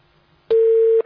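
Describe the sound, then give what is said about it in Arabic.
A phone line tone sounds after a dropped call: one steady, loud, mid-pitched beep lasting about half a second, heard alone. “اتصال انقطع. معانا اتصال تاني.”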